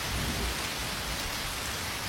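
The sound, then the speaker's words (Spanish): Rain falling as a steady, dense hiss of drops on a surface, continuous and even throughout with no other sounds. “Bajo la lluvia, gente, está lloviendo, me dijeron por ahí.”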